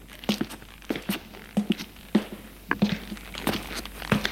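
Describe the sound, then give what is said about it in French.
Footsteps climbing dusty wooden stairs, a steady series of dull, knocking treads at an even walking pace, heard alone with no talk. “Et il monte les escaliers de bois poussiéreux.”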